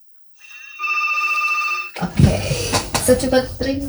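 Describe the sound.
Telephone ringing on a radio call-in line: a steady electronic ring tone sounds for about one and a half seconds, then gives way to clattering noise and people talking.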